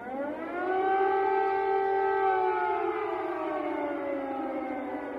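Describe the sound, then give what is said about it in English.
Air raid siren wailing over Kyiv, a loud, sustained tone rich in harmonics that holds steady and then slowly drops in pitch toward the end. “Air raid sirens have been taking place for the last few hours. Take a listen. Sounds like this.”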